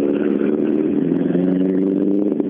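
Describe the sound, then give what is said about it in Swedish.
An Opel Ascona D rally car passes on a rally stage: a loud, steady, mid-pitched engine drone with a rough clattering edge, holding nearly constant throughout. “Ja, Johansson Strandling passerade i sin Ascona D.”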